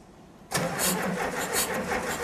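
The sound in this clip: An engine starting up as people try to get it running once fuel arrives: a faint hiss, then an abrupt catch into a loud, steady, rough roar that keeps running to the end.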